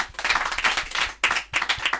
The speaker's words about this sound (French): La chorale vous acclame très fort.